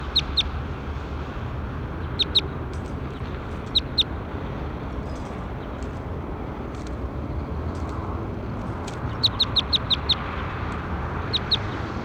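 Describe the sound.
Birds call in sharp, high-pitched chirps, arriving in scattered quick clusters over a steady low rumbling background, with no talking.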